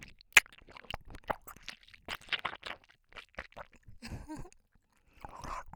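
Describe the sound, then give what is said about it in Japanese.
Someone chews food while eating, with many irregular crunchy and moist bites and mouth sounds. The bites are soft and close, spaced unevenly, and no voice is heard. “お姉さん食べてる音ちゃんと聞いてね。”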